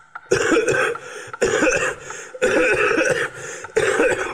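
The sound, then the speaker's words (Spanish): A harsh coughing fit: four separate bursts of rough, hacking coughs with throat clearing, each burst loud and choppy, broken by short quiet gaps. “¿Cuánto tiempo hace que tenéis esta tos?”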